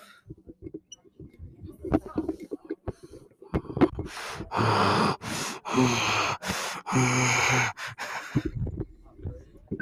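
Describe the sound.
Heavy, exaggerated breathing: a few long, loud, breathy exhalations follow scattered snorts and mouth clicks, with a quieter stretch of small noises at the end.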